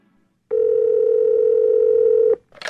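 A telephone line gives a steady, unbroken dial tone for about two seconds as a call is about to be placed, then cuts off and is followed by a brief noisy click.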